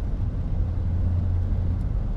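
Steady low engine and road rumble from a car driving along a road, a continuous even drone with no voices and no distinct events.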